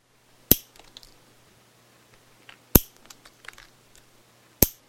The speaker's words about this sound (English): This is the sound of a person clipping their nails.